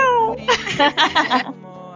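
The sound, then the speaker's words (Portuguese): A kitten meows in a few high, wavering cries, the first sliding downward, loud and close together. “Vixe, esse gatinho.”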